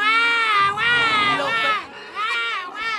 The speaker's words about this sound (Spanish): Baja el volumen un momento, el niño llorando, por favor.